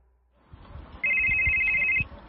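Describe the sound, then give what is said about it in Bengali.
A telephone ringtone sounds as one steady, loud electronic tone lasting about a second, over a low, rumbling background. “বৃহস্পতিবার বিকেল বেলায় দীপেনের একটা phone পেলাম।”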